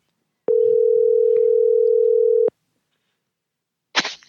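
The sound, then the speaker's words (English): Telephone dial tone as a call is dialed: a steady single-pitch tone sounds for about two seconds, cuts off abruptly, and is followed by a brief burst of noise after a silent pause. “Okay, here we go. We're dialing.”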